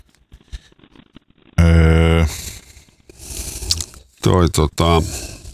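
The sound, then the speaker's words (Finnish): Country song played backwards: garbled, reversed singing and instruments with a loud sustained harmonic passage, then noisy swells and a few warped vocal bursts. “Mitä tapahtuu, jos soitetaan country-biisi väärinpäin?”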